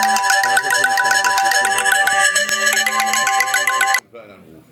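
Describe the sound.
A phone's ringtone for an incoming call sounds loudly during a meeting, a bright, busy electronic melody with quick repeated notes that cuts off abruptly near the end.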